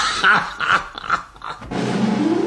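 Chewing and eating sausages: wet, crunchy munching in about four rhythmic bites, followed by a denser continuous noisy passage.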